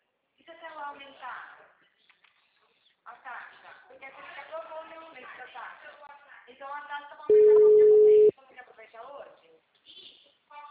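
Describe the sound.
A single loud, steady telephone tone about one second long, heard as a busy signal after a dropped call. It sits between stretches of talk.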